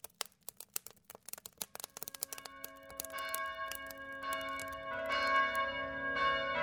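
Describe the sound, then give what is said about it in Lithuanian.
Church bells ring on Christmas morning: many quick, bright strikes at first, then overlapping sustained tones build and swell louder toward the end. “Jau šventų kalėdų rytas, skamba varpai”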